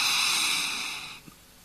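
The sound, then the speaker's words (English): A big deep breath taken before chanting, a long, steady, airy rush that slowly fades away over about a second. “Try that before you chant. Take a big breath.”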